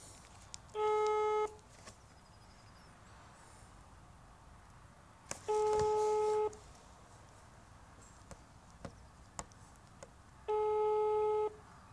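A ringback tone plays during an outgoing phone call: three long, steady, level beeps, each about a second long, separated by several seconds of quiet line noise with occasional faint clicks.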